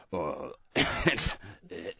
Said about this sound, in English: Excuse me. He's hurt his throat trying to do that, folks. The cough button comes in handy.